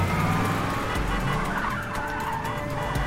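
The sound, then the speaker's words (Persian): Cars skid during a car chase: loud, continuous engine roar with long tire squeals running through the whole stretch, and no voices. “دو تا ماشین دارن ما رو تعقیب میکنن.”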